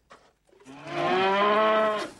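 A cow moos beside a tropical runway: one loud, drawn-out, low call rich in harmonics that lasts over a second, preceded by a brief faint sound and a short silence.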